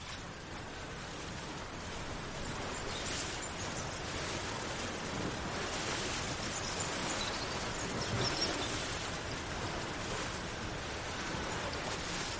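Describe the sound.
A calm sea washes steadily in soft, continuous waves, a faint, even hiss of surf with no distinct breaks and no voices.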